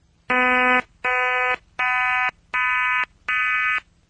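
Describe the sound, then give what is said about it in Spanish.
An auditory-illusion sequence of five evenly spaced buzzy harmonic tones. Only the first contains the low fundamental note; the other four lack it but still seem to carry the same pitch. “Lo vamos a escuchar a continuación, precisamente esta secuencia que he dicho, y solamente en el primer caso suena una nota sí, en el resto no. Vamos a escucharlo.”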